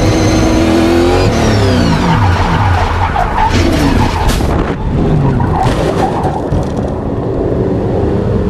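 Tires screech as a race car spins out on track during a qualifying warm-up lap, a loud sustained squeal with sweeping tones over a revving engine, with no talk.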